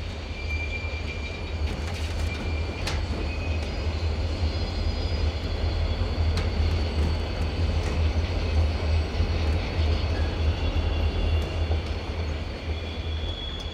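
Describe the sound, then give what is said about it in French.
Train wagon wheels roll on rails in a steady, low, droning rumble that continues evenly throughout, with faint high metallic tones above it. “Le bruit macabre des roues des wagons au contact avec les rails nous abétit, comme un somnifère, et nous laisse sans réaction.”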